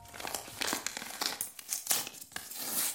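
Crinkling and rustling paper as a light blue envelope left on a kitchen counter is handled and opened, a steady run of crisp scratchy crackles with a few sharper tearing bursts.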